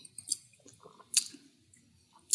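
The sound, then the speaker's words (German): Faint sipping from an ice-cold drink: a few soft, wet slurps and small liquid clicks spaced apart, with quiet gaps between them. “Und vom Geschmack her muss ich nochmal einen Schluck nehmen.”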